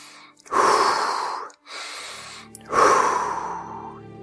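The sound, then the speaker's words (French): Deep breaths taken at the end of a guided relaxation exercise. Three long, airy breaths follow one another, each a broad whoosh that swells and slowly fades, heard alone with no talk. “Effectuer quelques grandes respirations.”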